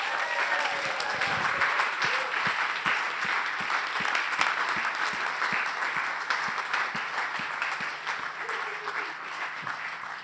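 Congregation applause at a church baptism service welcoming two people forward, with steady, dense clapping that holds at an even level for about ten seconds.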